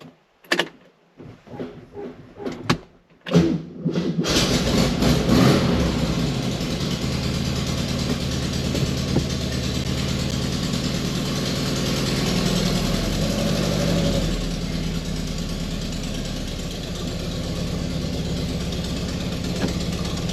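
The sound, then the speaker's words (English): A car engine cold-starts after sitting four or five days, with newly replaced carburettor linkages. A few short cranking bursts lead into the engine catching, and it then settles into a loud, steady idle drone with no voices. “This time it is cold start, first thing in the morning. Hasn't been started in about 4 or 5 days, and I replaced the carb linkages this week.”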